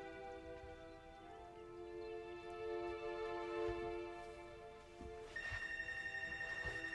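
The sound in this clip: A telephone rings inside a home, faint and steady, with sustained bright electronic tones that grow more prominent toward the end. No voices are heard.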